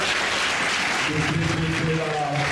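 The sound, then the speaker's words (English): Audience applause for a Dunbar High School coach: dense, steady clapping that fills the whole stretch, with a voice speaking over it in the second half. “Let's give him a hand.”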